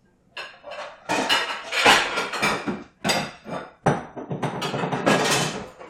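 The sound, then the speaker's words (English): Kitchen clatter as a bowl is taken out to hold strained spaghetti squash: a few loud bursts of ceramic and metal clanks and rattles, separated by brief pauses, with no talking. “So I'm just going to get out a bowl to put the spaghetti squash in.”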